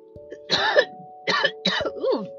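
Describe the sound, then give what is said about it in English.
A person with a bad cough coughs and clears their throat in a few short, rough, raspy bursts separated by brief pauses, with a low steady hum underneath. “Y'all know I got a bad cough, y'all.”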